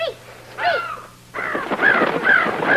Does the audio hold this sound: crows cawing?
yes